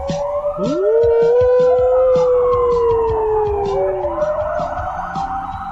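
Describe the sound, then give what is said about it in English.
A dog howling in imitation of a siren, with long wailing notes that sweep upward and then slide slowly down, mixed with higher wavering tones and sounding loud and continuous throughout. “when a dog hears a siren and then purses his dog lips and tries to replicate the siren.”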